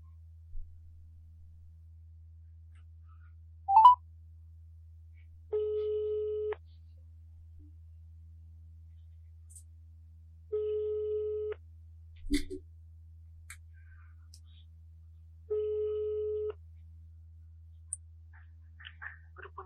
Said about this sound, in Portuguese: Então foi aí que eu liguei, eis aí a ligação.